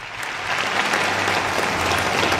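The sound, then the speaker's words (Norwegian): Applause from a crowd at a product launch for a new US government website. The clapping is dense and steady, builds slightly in the first half-second and then holds at full strength to the end. “Full jubel da Donald Trump lanserte den amerikanske regjeringen sin nye nettside.”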